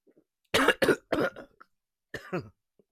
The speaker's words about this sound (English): As I choke on my tea, comes out my nose. Actually, you know what that was? That was instant karma. That I just choked and tea came out of my nose.